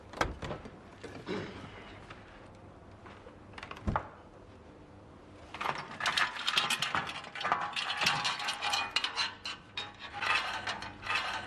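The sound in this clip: A delivered package being opened: irregular rubbing, rasping and scraping, one sharp knock partway through, then denser crinkling and rustling to the end.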